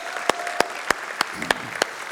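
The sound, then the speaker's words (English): Clapping at a church service welcoming first-time guests: seven sharp, evenly spaced claps in a steady rhythm, fairly faint, with no talking. “Can we give it up to all of our first-time guests?”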